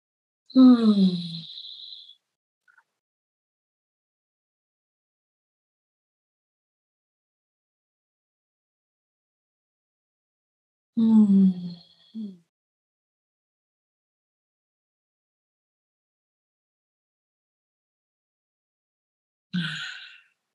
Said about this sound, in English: Let's close this time of introspection with three long, deep breaths and long exhales together.